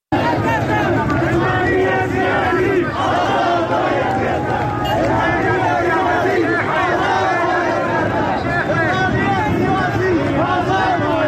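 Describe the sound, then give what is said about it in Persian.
Protest crowd chanting anti-government slogans in Zahedan, a dense, continuous roar of many voices shouting together, loud and unbroken throughout. “این صدای مردم زاهدان هست امروز”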